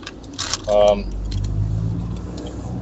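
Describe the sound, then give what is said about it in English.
A small car driving on the road makes a steady, low engine rumble throughout, with a brief metallic jingle and a short tonal sound near the start. “Oh, I'm just heading home from work. Just in this little car.”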